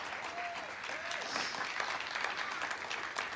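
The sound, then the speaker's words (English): An audience applauds to welcome two guests, a steady, even wash of clapping hands that stays level throughout. “So I wonder, would you join me in giving a really warm welcome to Natasha and to Mark? Let's put our hands together.”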